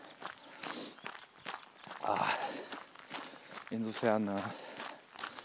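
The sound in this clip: Footsteps of a person running outdoors make a faint, steady patter that carries on under continuous talk from the runner.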